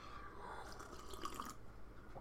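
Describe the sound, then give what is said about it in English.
A quick sip of water, heard as faint, soft liquid slurping and dripping sounds with no talk. “I'll grab me a quick little sip of a little water.”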